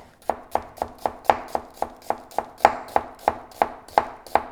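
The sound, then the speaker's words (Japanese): Knife thinly slicing about 200 g of onion on a board, a steady, rapid series of crisp chopping strokes in an even rhythm with no talk. “玉ねぎこれ 200g 薄切りに”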